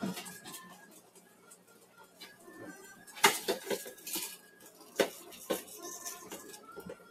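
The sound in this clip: A frying pan with a loose handle clatters and clinks as it is handled while dinner is cooked, with several sharp metallic knocks and quieter rattles between them.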